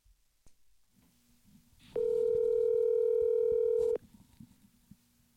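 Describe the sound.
A steady telephone dial tone sounds as a call is placed. The loud, constant, buzzy tone lasts about two seconds and cuts off abruptly, with faint background noise before and after.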